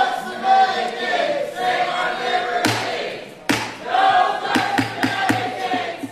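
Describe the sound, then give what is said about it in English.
Protesters chant loudly inside and outside a Senate Finance Committee hearing on the Graham-Cassidy health bill, a dense, continuous crowd roar broken by several sharp thuds and bangs. “And as you hear, immediately protesters inside and outside the hearing room began chanting.”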